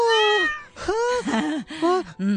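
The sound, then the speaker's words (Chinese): A cat meows, a pet given as a birthday gift, letting out several bright, wavering calls in a quick string, each with a bending pitch. “真系猫猫啊！”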